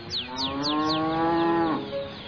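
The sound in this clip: A cow on a small mountain farm lets out one long, loud, low moo that holds steady before trailing off, with a few quick high chirps near the start.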